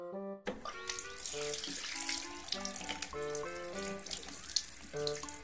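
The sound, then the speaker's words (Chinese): Water runs from a tap as someone washes their hands, a steady hiss that continues through the whole clip under prominent music with distinct sustained notes. “起身去洗手间，把手冲洗干净。雷少爷又清洗了把脸，清醒下。”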